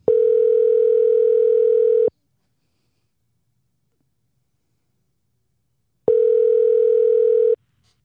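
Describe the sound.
A telephone call rings out as two long, steady ringback tones of about two seconds each, separated by roughly four seconds of silence, with no one answering.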